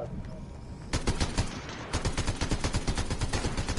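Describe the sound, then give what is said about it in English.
Rapid gunfire in a video game: after a brief quieter stretch, dense bursts of shots crack out in quick succession and keep going to the end, loud and sustained. “I'm being shot at.”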